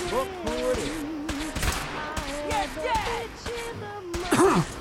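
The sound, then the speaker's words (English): Gunfire in a post-apocalyptic shooter video game with power armor and monsters: many sharp shots crackle intermittently under a person talking. “Who is shooting at me?”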